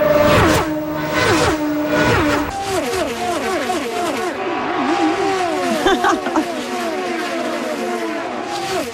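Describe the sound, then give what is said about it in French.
Race car engines rev and roar at an auto race in Markham, north of Toronto, with repeated rising pitch sweeps that drop back as the cars accelerate and shift. The overlapping engine tones stay loud and continuous throughout. “C'est la course automobile qui s'en vient dans la grande région de Toronto, à Markham”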